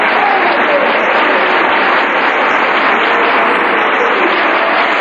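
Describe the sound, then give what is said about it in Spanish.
Applause from an audience at a religious talk, a dense and steady wash of clapping that stays loud and even for the whole stretch, with no clear breaks or individual claps standing out. “Un aplauso, señor.”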